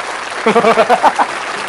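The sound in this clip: A brief applause sound effect mixed with cheering voices, lasting under a second as a single short burst between stretches of near silence.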